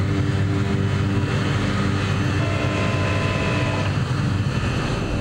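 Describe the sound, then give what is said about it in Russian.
An airplane's engines drone steadily as it comes to a stop after landing, a loud, constant low rumble with a sustained tonal whine running through it. “Капитан слегка поворачивает штурмвал. Самолет останавливается.”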